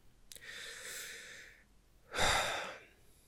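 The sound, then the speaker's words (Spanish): A person takes a deep breath: a long, airy inhale lasting over a second, a short pause, then a louder, rushing exhale. “acabo de respirar muy profundo”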